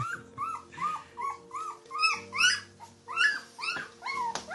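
A puppy whimpers and yips in many short, high, plaintive cries that repeat at a fairly steady rhythm, with fainter low growly undertones between some of them.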